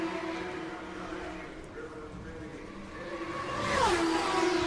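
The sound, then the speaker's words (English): Indy race cars lapping the Indianapolis 500 oval: a quiet engine drone builds toward the end as one car sweeps past with a sharp downward pitch bend. “Meanwhile, it is Roberto Guerrero that continues to circulate the track and lead the Indianapolis 500. He comes off of turn four, completes another lap, and Davy Jones stays out.”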